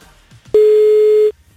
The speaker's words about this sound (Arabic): عم نتصل هلأ بالرابح الثاني. خلينا نشوف مين حيكون رابح الثاني معنا. يا رب يرد على التليفون.